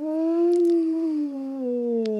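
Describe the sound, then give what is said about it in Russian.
A wolf howls in one long, clear, sustained tonal note that rises a little early on and then slowly sinks in pitch, heard alone without voices. “Да, и вот вечером, вот если услышали вой, ну, послушайте, насладитесь песней. Такой вой,”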